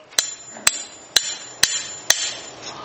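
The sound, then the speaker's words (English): A hammer drives a nail into wood with five sharp, evenly spaced strikes, each giving a bright metallic ring that fades quickly into quiet. “And then they would take the nail and the hammer, and then they would go”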